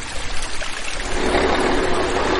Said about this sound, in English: We are near the banks of the Clark Fork River, just outside of Missoula, Montana.